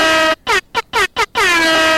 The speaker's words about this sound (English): Where's the air horn?